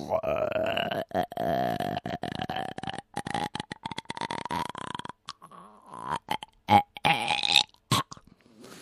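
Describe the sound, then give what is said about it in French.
Retching and burping from someone pushing a finger down their throat: a long, croaking, drawn-out belch, then shorter choppy gagging bursts in an uneven rhythm. “C'est bon de vomir. Ou plutôt de se mettre un doigt dans la bouche. Oh, c'est bon.”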